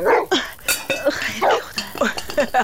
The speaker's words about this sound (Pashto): دا د څنګ د کیږدۍ سپی چا ته غپیږي